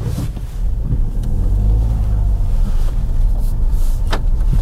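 Dacia Jogger car driving slowly on a rough, slightly off-road track: a steady low rumble of engine and tyres holds an even, fairly loud level, with a few light bumps and no rattling.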